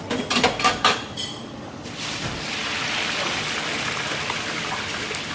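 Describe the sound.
Sizzling from a deep fat fryer cooking food in a kitchen: a few sharp clattering knocks at the start, then a loud, steady, crackling hiss.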